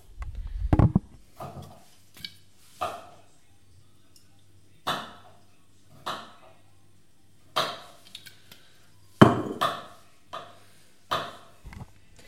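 Kitchen clicks and clatter while a gas stove is lit and olive oil goes into a pan: a long series of sharp knocks and clanks at uneven intervals above a low, steady hum.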